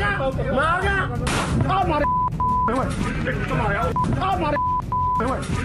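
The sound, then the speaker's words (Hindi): Gunshots from a shooting during an argument filmed on Facebook Live outside a chemist's shop in Mansa, Punjab: sharp, harsh cracks amid shouting voices, with a steady beep tone recurring over the commotion. “Punjab के मानसा में Facebook live में बहस के दौरान ये गोलीकांड की तस्वीरें हैं।”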